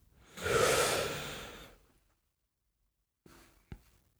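One long, breathy exhale during a breathing exercise swells and fades over more than a second, followed by quiet and a couple of faint, short breaths or sniffs.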